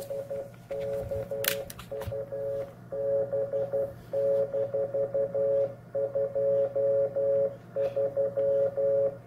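Morse code station identification on amateur radio: a steady mid-pitched tone keyed on and off in quick groups of dots and dashes, with short pauses between groups, over a low constant hum.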